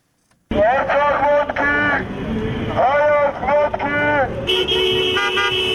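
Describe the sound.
Car horns honk repeatedly from vehicles in a slow protest motorcade, sounding loud and sustained over steady traffic noise, with voices mixed in.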